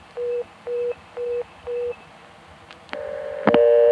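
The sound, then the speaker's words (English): Telephone tones while dialing a long distance call: four even, evenly spaced beeps, then a steady tone, with a louder burst of dialing tones near the end. “So that time we were able to start dialing a long distance call, but we were stopped by the fact that we can't talk to the operator.”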